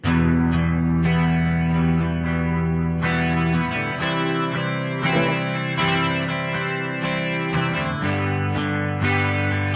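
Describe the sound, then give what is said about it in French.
Guitar played through an amp simulation with a delay effect and a full reverb preset, sustained distorted notes ringing and overlapping into a continuous wash of echoing repeats, with no talking. “Parce qu'il y avait un espèce de délai qui se réverbe aussi.”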